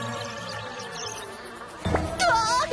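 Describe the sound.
A fly buzzes in a steady, droning hum with a thin whine on top. A louder, wavering stretch enters near the end.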